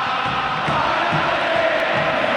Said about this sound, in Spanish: Ah, cómo está la gente de River, ¿eh? ¡Oh! Es tremendo esto, ¿eh? Se escucha bien de fondo, ¿no? ¡Qué locura!